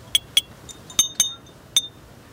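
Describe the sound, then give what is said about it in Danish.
A teaspoon taps glass bottles in a few light, bright clinks with a high ringing tone, unevenly spaced, with one softer tap among them, heard alone. “jeg har fundet en form for teske, som jeg ligesom kan slå på de her flasker med. I kan lige få en lille smagsprøve.”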